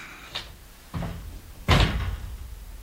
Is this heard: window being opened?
yes